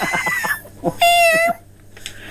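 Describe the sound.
A person imitates a cat meowing with one drawn-out, nasal, fairly high mew of about half a second, set between bits of talk.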